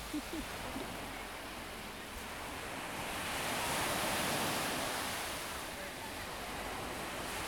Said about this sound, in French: Les vagues se cognent très très fort sur ces rochers et les gouttelettes se déposent sur mon visage.